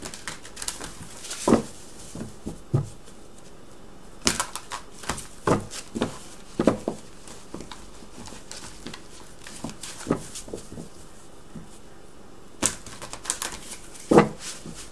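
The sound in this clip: A deck of playing cards being shuffled and drawn, producing irregular, light papery flicks and snaps with a few sharper slaps scattered through a quiet background.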